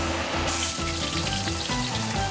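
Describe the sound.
An egg pancake sizzles in a pan, made of beaten blue-shelled eggs with plenty of scallions and fried until golden. A dense, steady crackling hiss runs without a break from start to finish.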